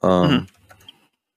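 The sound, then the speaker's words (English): A few faint, light keyboard clicks as someone types quickly on a computer keyboard, following a brief burst of a voice. “Let me actually type in real quick because I want to look at the score.”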